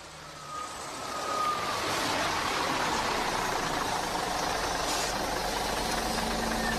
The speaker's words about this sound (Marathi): चला चला चला, बस आली आहे